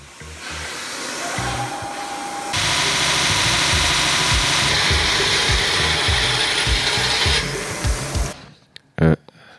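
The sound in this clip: Pliers, nuts and screwdrivers are handled to build something, with a steady run of rhythmic ratcheting clicks over a loud whirring. It ends abruptly, followed by quiet and a few sharp knocks.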